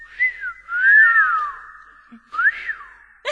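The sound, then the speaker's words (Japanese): A person whistles a short tune alone: three clear, loud phrases with sliding glides that rise and fall, separated by brief pauses. “口笛吹く、 吹ける人”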